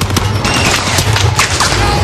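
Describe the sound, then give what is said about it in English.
Heavy gunfire in a war film street battle between GIs and German soldiers, with a tank nearby: rapid, overlapping shots and bursts pound continuously without a break. “A dozen Germans are engulfed. Others run for cover, dropping beneath the onslaught of gunfire.”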